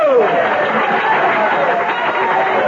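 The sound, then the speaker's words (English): Audience applause and crowd murmur greet a senator-elect, a steady rush of clapping mixed with chatter and voices throughout. “Your applause is heartwarming, and I am grateful.”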